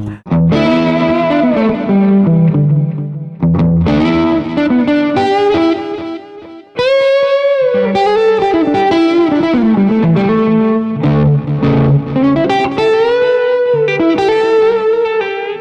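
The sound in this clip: A Les Paul electric guitar plays through heavy distortion, with loud, sustained, harmonically rich notes and chords and only a couple of brief breaks in the playing.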